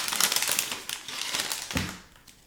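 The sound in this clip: A 2022 wax pack of trading cards is torn open, giving a rapid flurry of crisp crinkles, rustles and small snaps from the wrapper. The sounds are fairly faint.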